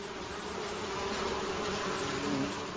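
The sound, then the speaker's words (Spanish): Bees from a colony buzzing: a dense, continuous droning hum of many insects that stays steady and fairly loud throughout, with no voices. “Las abejas. Las abejas viven en colonias de hasta 50.000 individuos.”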